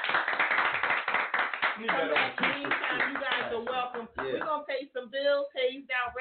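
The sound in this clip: Studio audience clapping for a guest on a radio show, brisk rapid claps in the opening seconds, followed by voices.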